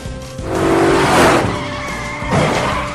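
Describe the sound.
A car roars and skids during race practice, a dense rushing noise of engine and tire squeal that swells, eases slightly, then surges again near the end, with no talking.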